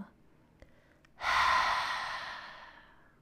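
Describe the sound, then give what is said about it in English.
A single deep exhale through an open mouth during a full-body stretch: a soft, airy breath that swells suddenly, then slowly fades over about two seconds, with no talk. “Open the mouth and exhale, let it go.”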